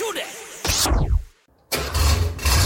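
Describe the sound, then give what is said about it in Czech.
A classic car engine starts at a gathering of vintage and youngtimer cars. Loud mechanical roaring is broken by a falling sweep and a short silent gap, then returns at full strength. “Tohle je zvuk, který nestárne. Nablízkané karoserie, vůně benzínu a automobilové legendy. Klasika na čtyřech kolech, sraz veteránů a youngtimerů v Karolině.”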